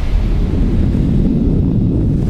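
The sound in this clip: A loud explosion on a mountain during an earthquake comes through as a deep, continuous rumbling roar, heavy in the low end and steady in level from start to finish.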